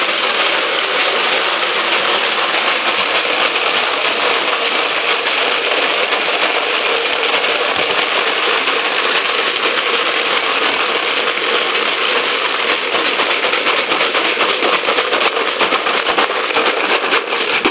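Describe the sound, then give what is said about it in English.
About a thousand bullets are shaken around in a container to coat them with a brown coating, making a dense, loud, continuous rattle that carries on steadily without pause. “That's probably enough for 1,000 bullets, the first coat. Okay? See the little brown stuff here? Now, here's what we do. We shake it around, just like this.”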